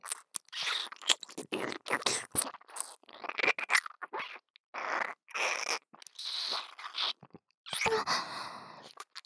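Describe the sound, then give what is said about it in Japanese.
Wet licking and mouth noises: many short smacking, crunch-like bursts in an irregular rhythm, moderately loud and separated by brief silences, with no talk. “舐めちゃいますね。おいしいです。”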